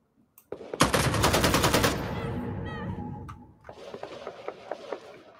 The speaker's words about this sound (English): Right, let's shoot them for the helmet.